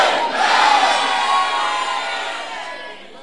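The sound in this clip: A church audience shouts amen together in one loud, sustained roar of many voices, swelling at the start and then slowly fading over about three seconds.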